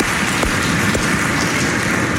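Congregation applause at a church service, offered in thanks for donations. Dense, even clapping with a hissing, rain-like texture runs steadily throughout.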